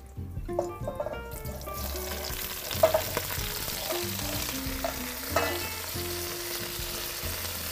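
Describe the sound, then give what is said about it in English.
Chopped leek sizzles steadily as it sautés in very hot oil, a dense continuous frying hiss with scattered crackles and a few louder stirring clatters throughout. “Now we wait the oil to be really, really hot. I want to start with the leek. Okay, now we start with the leek.”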